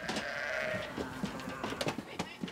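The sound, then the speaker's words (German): Sheep and lambs bleat in a barn that holds ailing ewes and their young, with overlapping wavering cries and many short bleats running through the whole stretch. “800 Schafe gehören zur Herde. Die steht aber draußen auf der Weide. In die Scheune werden nur die Problemfälle geholt. Sobald Lämmer und Mütter wieder fit sind, kommen sie zurück.”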